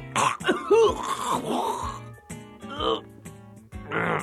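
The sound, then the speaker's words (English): Throat clearing: a fairly loud run of rough, gravelly rasps and hacking bursts that vary in pitch, with short pauses between them. “it appeared I had something caught in my throat.”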